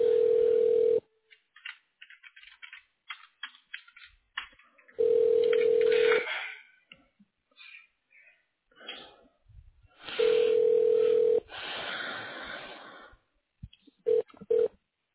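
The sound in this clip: Ringback tone of a telephone call to an office extension that goes unanswered. It sounds in long, even bursts about five seconds apart: three full bursts and a fourth cut short, with fainter scattered sounds in the gaps.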